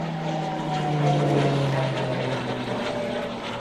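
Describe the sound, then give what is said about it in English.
Propeller drone of a T-6C Texan aircraft circling over a house, a loud, steady engine hum with a low tone that swells slightly mid-way and then holds. “The T6C Texan twice circled above Eddie Chapman's house before pilot Paul Stockley radioed a crackly happy birthday message to one of the last remaining World War II veterans.”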